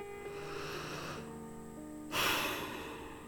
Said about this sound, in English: Let's take a deep breath.